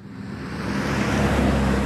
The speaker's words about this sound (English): The traffic on this stretch of I-25 north of Denver is the soundtrack